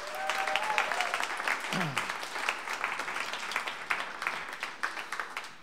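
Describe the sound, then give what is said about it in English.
Audience applause for a live music act: dense, steady clapping at a moderate level that carries on throughout without letting up. “let's have another big hand for our first act, Nene Camps.”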